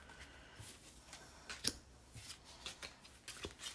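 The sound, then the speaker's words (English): Tarot cards being shuffled and pulled from a deck: quiet, scattered papery snaps, flicks and rustles in an uneven rhythm, with no talk. “Okay, so I'm pulling some cards with that intention right now.”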